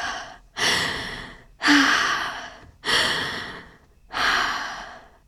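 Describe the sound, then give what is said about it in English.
Deep breathing: four loud, drawn-out breaths at a slow, even pace, each starting sharply and trailing off, with no talk. “Deep breaths.”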